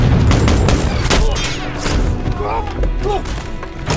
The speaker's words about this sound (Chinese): 远处的敌方狙击手手持 SVD 狙击步枪等着他，在他露头的这一刻毫不犹豫地扣下了扳机。